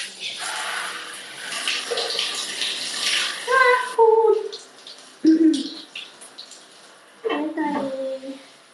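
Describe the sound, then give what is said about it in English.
Running water from a tap while feet are washed. A steady, hissing rush lasts several seconds, then a voice is heard over and after it. “Okay, I think it's warm enough now to go in and wash my feet.”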